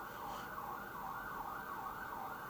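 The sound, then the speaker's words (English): An ambulance or police siren in Jerusalem wails continuously, its tone swinging up and down in a steady repeating cycle, with no voices over it. “It's not that. It's an ambulance or police”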